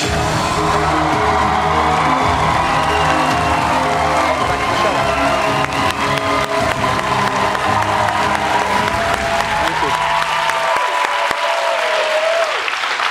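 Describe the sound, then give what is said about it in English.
Studio audience on The Daily Show cheering and applauding as a guest is welcomed: loud, sustained, dense clapping with whoops and crowd roar that thins out near the end. “you hear the cheers”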